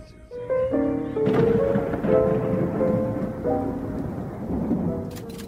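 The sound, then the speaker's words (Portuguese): Thunder and rain from a storm outside rumble under layered sustained musical tones. A broad roar swells early and continues throughout at a fairly loud level. “A tempestade lá fora consumia meus pensamentos.”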